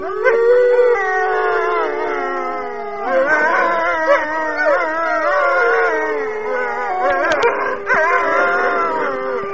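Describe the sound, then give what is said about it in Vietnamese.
A dog howls far out beyond a lake, giving long, wavering, mournful howls that rise and bend in pitch, with a few short yips between them and no talk over the sound. “Đằng xa phía ngoài hồ, con Scott tru lên ghê rợn.”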